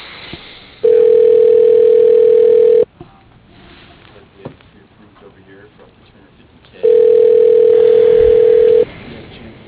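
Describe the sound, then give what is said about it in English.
Telephone ringback on a line as a call is transferred to voicemail: two loud, steady, mid-pitched tones, each lasting about two seconds, separated by a quieter gap of about four seconds filled with faint line noise. “I can go ahead and transfer over to his voicemail if you like.”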